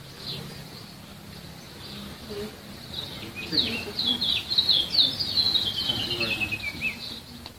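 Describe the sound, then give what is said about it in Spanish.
Birds singing in the morning: many bright, high chirps and trills that grow denser and louder after the first few seconds. They sit over a soft, low background rumble. “oigan a las benditas aves cantar, cómo están agradeciéndole a mi padre”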